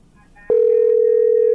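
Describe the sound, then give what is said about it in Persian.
A steady telephone line tone from a faulty phone call starts abruptly after a faint low murmur and holds at one even, unwavering pitch to the end. “تلفن مشکل دارن بخیالم”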